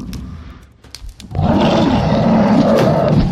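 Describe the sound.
An angry bear in a video game lets out a loud, sustained growling roar that begins after a short, quieter start and holds to the end.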